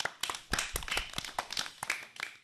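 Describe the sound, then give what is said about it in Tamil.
An audience applauds a student's speech with irregular, fairly faint bursts of hand clapping that rise and fall in density over the short stretch. “உங்களுக்கு எங்களது வாழ்த்துக்களை கரவொலி எழுப்பி தெரிவித்துக் கொள்கிறோம்.”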